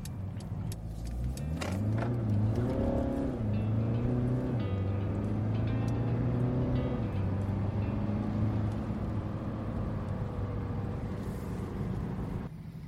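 A car accelerates onto a motorway on-ramp, heard from inside. Its engine drone climbs in pitch through a few gear changes, then settles into a steady, even road rumble with no talk.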